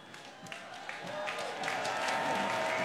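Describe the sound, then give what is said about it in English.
An audience applauds at a stage event with the Prince Sing-Along Choir, a fairly faint, steady patter of clapping that swells toward the end. “Let's give Thomasina a bigger hand than that. Let's give the Prince Sing-Along Choir a hand.”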